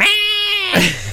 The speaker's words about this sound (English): You could take the cat too, though. You get to hear her